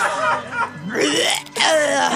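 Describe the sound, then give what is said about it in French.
A person lets out a long, loud, croaking burp after drinking beer. Its pitch wavers, and it breaks off briefly before resuming. “fais-nous donc ton petit rot habituel”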